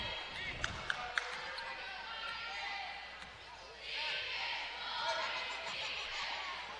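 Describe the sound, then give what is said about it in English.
A basketball is dribbled up the court during a game between Clarendon and Mountain Home. Three sharp bounces come early, then a murmuring crowd swells softly. “Bonner will dribble up between the circles.”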